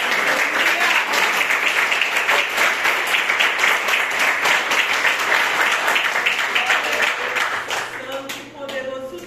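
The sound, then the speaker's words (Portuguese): Church audience applauding: dense, steady clapping from many hands holds at full strength for about eight seconds, then thins and softens toward the end. “A igreja pode aplaudir a Jesus?”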